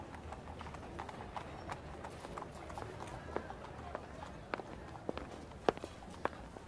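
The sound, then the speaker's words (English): Horse hooves clip-clop as a horse-drawn carriage crosses a street. A steady, busy clatter of hoof strikes runs throughout, with several sharper, louder knocks toward the end. “but I did see a carriage crossing the street”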